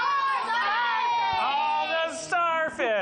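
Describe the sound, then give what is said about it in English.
Rowdy children from a kids camp cheer and shout together at a live event, a loud, sustained wall of young voices with whoops and shrieks breaking through. “You guys sound a little rowdy.”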